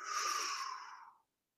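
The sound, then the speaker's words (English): A single moderately deep breath, a soft breathy rush of air lasting just over a second on its own, steady at first and then tapering away into silence. “So take a moderately deep breath.”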